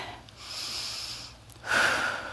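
A deep breath drawn in through the nose, a sustained airy hiss, followed by a louder, brighter rush of breath; no speech.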